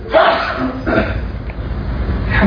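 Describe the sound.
A person sneezes with short breathy bursts over a low steady hum, the sounds fairly soft and without a sharp peak.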